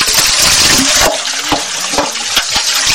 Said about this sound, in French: Sur place, un réservoir relié directement à la source permet de recueillir l'eau.